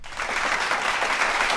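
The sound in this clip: Applause from a live studio audience: dense, steady clapping that holds at an even, fairly loud level from start to finish, with no talk.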